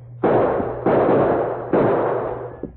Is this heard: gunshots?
yes

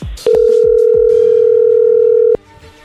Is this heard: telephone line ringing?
yes

